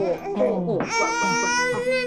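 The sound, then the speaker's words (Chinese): A baby cries suddenly after being calm, with a loud, strained, high-pitched wail that turns shriller early on and then continues steadily to the end. “怎么哭了？ 刚才还好好的呢，突然就哭进来了。”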